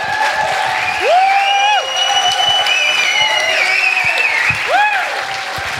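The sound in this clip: Audience applause and cheering welcoming a guest: steady, loud clapping throughout, with a few high, rising-and-falling whoops over it.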